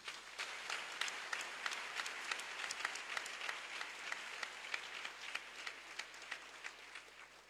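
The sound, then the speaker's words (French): Applause from a church audience: dense, sustained clapping from many hands, with a steady stream of sharp claps at an even loudness throughout. “Acclamons Jésus.”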